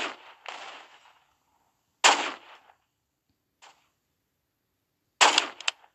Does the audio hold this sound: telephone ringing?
no

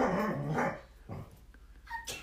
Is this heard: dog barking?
yes

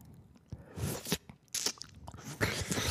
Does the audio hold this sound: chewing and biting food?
yes

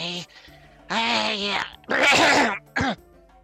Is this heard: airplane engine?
no

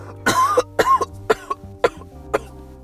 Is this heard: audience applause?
no

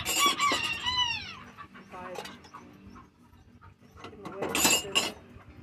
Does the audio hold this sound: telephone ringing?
no

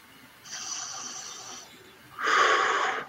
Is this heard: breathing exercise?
yes

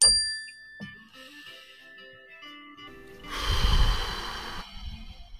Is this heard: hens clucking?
no

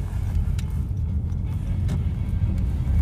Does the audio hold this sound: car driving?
yes

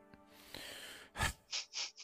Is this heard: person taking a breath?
yes

